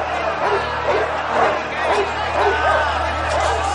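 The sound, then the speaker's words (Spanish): Dogs bark and snarl at a dog fight as excited men crowd around watching, sharp yelps and barks recurring over a steady hubbub of crowd chatter. “Los dueños se acercan a los perros. Numerosos hombres observan exaltados. Los hombres sueltan a los perros que se enzarzan.”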